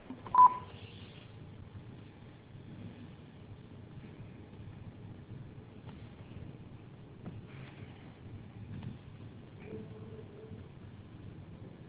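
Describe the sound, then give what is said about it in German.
A voicemail beep from an A1 mobile mailbox: one short, clear electronic tone right at the start, then only faint, low background noise for the rest. “Bitte hinterlassen Sie Ihre Nachricht nach dem Signalton.”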